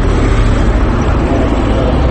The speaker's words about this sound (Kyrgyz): Аны көрүп атпайсызбы? Мына кетти дагы. КамАЗ маркасында кетти.